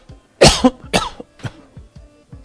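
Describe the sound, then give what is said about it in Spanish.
Several harsh coughs in quick succession, the opening burst loudest and the following ones weaker and fading, heard alone without speech. “Bueno, tengo tos, ¿qué hago?”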